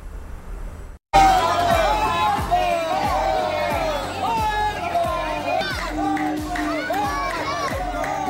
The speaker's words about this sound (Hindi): बोलबम का नारा है और भोले का सहारा है।